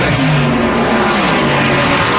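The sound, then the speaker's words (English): Loud, continuous roar of race cars on the last lap of a race, a dense unbroken wash of engine noise that stays steady throughout without clear breaks. “The white flag is out. One lap to go. This is it. Last lap.”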